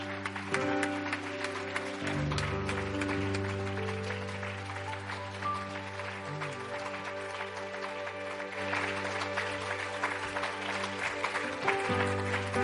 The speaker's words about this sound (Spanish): Dele un aplauso al Señor con todos sus